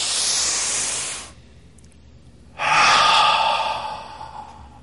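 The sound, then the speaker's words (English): A group at a weekend gathering takes a deep breath in, a broad airy hiss lasting about a second, then pauses in near silence before releasing a longer, louder exhale that slowly fades. “gather it up on this deep breath and release all of that on the exhale. So deep breath in.”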